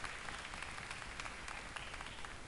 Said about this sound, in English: Put your hand together for Pastor Frankie.